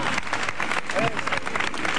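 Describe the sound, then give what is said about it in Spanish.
Dense applause from a crowd during a Holy Week procession as a float with a canopy moves slowly along, steady and continuous for about two seconds. “Se estaba aplaudiendo los momentos grandes de nuestra Semana Santa.”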